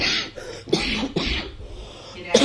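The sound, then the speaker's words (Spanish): A person coughs a few times in harsh, abrupt bursts separated by short pauses. One cough is at the very start and the last lands near the end, against a quiet background. “La tos, esto es una cosa muy común del directo.”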